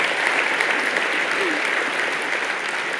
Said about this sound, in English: Yes, you can clap.